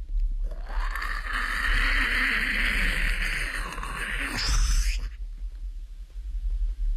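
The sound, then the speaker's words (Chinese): Speedboats speed across a river with a sustained, loud, hissing engine roar that holds steady for several seconds, then cuts off abruptly and leaves a low rumble. “又过了一会儿，发现江面上如飞似箭来了八只快艇”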